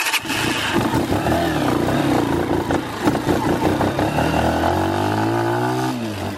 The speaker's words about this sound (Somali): annagoon ku safray mootada nuuc laba lugaleeda ah